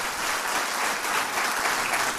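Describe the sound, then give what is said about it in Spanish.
A church audience applauds during a Spanish-language sermon on family and giving. A dense, continuous burst of clapping from many hands holds at an even, fairly loud level. “Dale ese aplauso a la palabra de Dios.”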